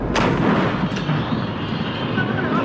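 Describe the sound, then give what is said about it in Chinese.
An artillery gun firing a shell during a live-fire exercise, a sharp, heavy blast followed by a long, rushing roar that fades slowly. “每炮打出去之后，我们都可以在阵地上清晰地听到炮弹在飞向目标过程当中撕裂空气，发出这种沙沙的声音。”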